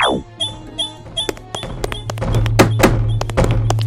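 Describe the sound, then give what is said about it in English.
A jar of scorch ointment falls off a shelf and breaks open in a video game. A quick falling tone opens, followed by scattered taps and thuds, then a denser clatter of knocks over a low steady hum. “Some scorch ointment has fallen off the shelf and broken open over here.”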